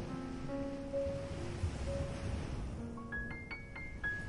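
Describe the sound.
Ocean waves roll onto the shore and draw back, a soft, continuous wash of surf with gentle swells and no voices.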